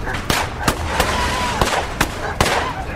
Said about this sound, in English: shots tore through their real bedroom. The gunfire lasted a while.